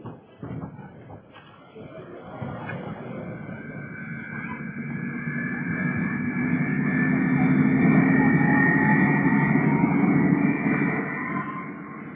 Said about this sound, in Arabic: شركه مصر للطيران تحييكم وتتمنى لكم رحله ممتعه على متن طائرات